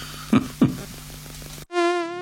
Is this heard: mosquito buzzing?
yes